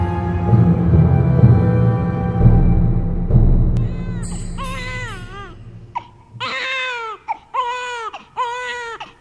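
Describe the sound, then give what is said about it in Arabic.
An infant cries late at night in high, wavering wails that come in several separate bursts after a low, rumbling passage. “لا تبكي، لا تبكي يا عمري، لا تبكي يا عزيزي.”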